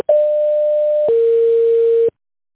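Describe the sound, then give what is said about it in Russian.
Telephone signalling tone as a call is transferred to an operator: two steady electronic beeps of about one second each, the second slightly lower in pitch, followed by silence. “Ваш звонок переводится на оператора.”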